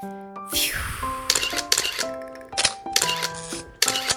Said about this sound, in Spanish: las cámaras hacen clic.